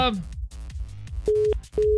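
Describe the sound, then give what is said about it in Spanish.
A call-in phone line goes dead after the caller hangs up. Two short, steady mid-pitched busy-tone beeps come near the end, after a moment of muffled sound. “Ay, colgó, ya se le cortó. Se le fue el saldo.”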